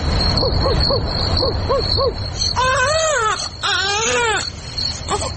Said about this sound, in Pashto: ماشوم د زړا علت څه دی او اصل کیسه څه ده دا به په دې ډرامه کې واورو.